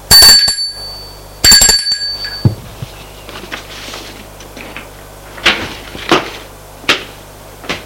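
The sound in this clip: A hotel concierge's bell rings twice, each a sharp strike with a bright, high metallic tone that fades out. Soft clunks and rustling follow.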